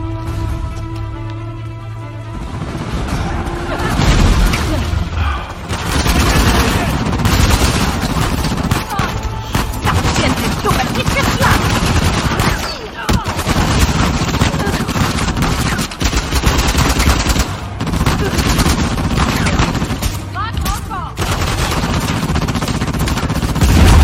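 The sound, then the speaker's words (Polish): Rifle gunfire crackles in rapid, dense bursts. Many shots run together over a booming undertone, and the firing continues almost without pause. “Karabin.”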